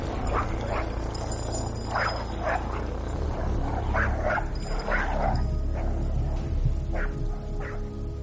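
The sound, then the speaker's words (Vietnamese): A caged dog near a stilt house barks repeatedly in sharp, uneven bursts over a steady low background hum. “con chó bị nhốt trong lồng ở gần đó cứ sủa nhặn lên rồi giằng xích như muốn xổng ra ngoài vậy.”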